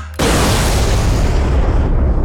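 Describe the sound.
A nuclear bomb explodes: a sudden, very loud blast breaks into a dense, sustained roaring rumble that stays heavy to the end.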